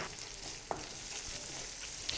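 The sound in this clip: Chili paste fries in a pan as vinegar is added, a quiet steady sizzle with a few soft clicks and scrapes over the continuous hiss.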